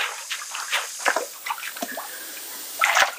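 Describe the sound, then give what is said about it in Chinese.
Water sloshing and trickling as tree bark soaks in local mountain spring water for handmade paper, with irregular splashes and drips of moderate loudness and a louder cluster of splashes near the end. “我们利用这个当地的这个山泉水来浸泡呢，原因主要是去除这个树皮当中的一些木质素以及果胶和这个淀粉。”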